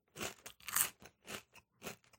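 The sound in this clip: Crunching and chewing on spiced chips, with many quiet, sharp crisp bursts in an irregular rhythm separated by short pauses. No voices are heard.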